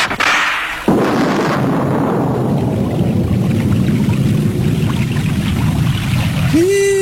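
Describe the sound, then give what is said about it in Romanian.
Heavy rain pouring down, a dense continuous hiss that starts abruptly about a second in and stays loud and even throughout. “Da, toarnă, nu glumă. Da. Ia hai să ne adăpostim și noi lângă grupa aceea.”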